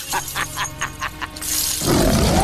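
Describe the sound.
A creature roars as it bares its sharp teeth: a quick run of throaty growling pulses swells into a loud, sustained rasping roar that holds to the end.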